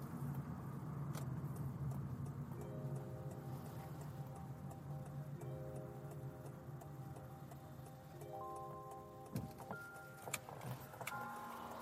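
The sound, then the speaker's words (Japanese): Steady road noise from inside a car being driven, a low continuous rumble with a few faint clicks and no talking. “ちょっと冷静に運転するんで、しばし黙ります”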